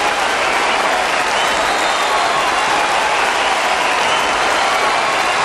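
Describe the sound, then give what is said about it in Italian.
Audience applause at a music performance of songs linked to Naples: a loud, dense, continuous wash of many clapping hands that stays level from start to finish. “Grazie, grazie per questo applauso.”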